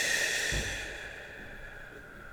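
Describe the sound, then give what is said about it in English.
A deep breath in and out during a guided exercise session, a soft, airy rush of breath strongest at the start and fading away over a steady sustained tone. “take a deep, energizing breath. Inhale. And exhale.”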